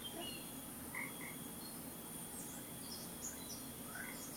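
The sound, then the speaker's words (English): Soft night chorus of insects hums as a faint, steady high-pitched drone, with a few brief chirps scattered over the continuous background. “there is a pleasant, soft chorus of night insects humming in the background.”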